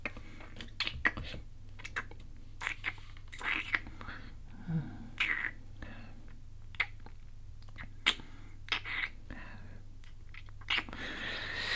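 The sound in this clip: Wet, close ASMR mouth sounds of ear eating: many irregular soft smacks, licks and clicks scattered throughout, over a faint steady low hum with some breathy noise.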